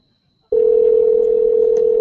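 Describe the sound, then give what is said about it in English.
A telephone dial tone for a call about to be dialed starts abruptly after a brief silence, then holds as a steady, loud single tone to the end without breaks. “Let's give him a call.”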